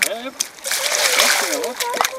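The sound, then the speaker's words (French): Bare feet trample and splash at a steady rhythm in a small amount of added water, making wet slaps and sloshes. People talk over the splashing. “On met déjà un peu d'eau. Et là, vous piétinez comme ça. Un bon rythme.”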